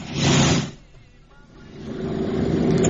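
Motorcycle engine revving: a loud burst of engine roar in the first moment, then a drop to a quieter idle before the sound builds steadily again toward the end.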